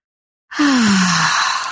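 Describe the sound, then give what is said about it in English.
A deep breath taken in during a guided breathing exercise: one long, loud breath starts abruptly after a brief silence and carries a faint voiced tone that slides downward. “So let's take that breath of love and gratitude.”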